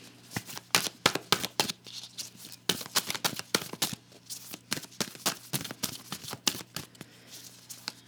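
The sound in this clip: Tarot cards being shuffled before a card is pulled: many quick, crisp riffling bursts in an uneven rhythm, fairly soft, with no voices.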